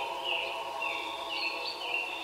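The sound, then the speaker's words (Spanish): A white bird sings in a tree, giving a few high, thin chirps in a repeating pattern over a soft, steady background hiss. The calls are faint. “Vieron un pájaro blanco cantando en un árbol. Esperaron y escucharon el canto del pájaro.”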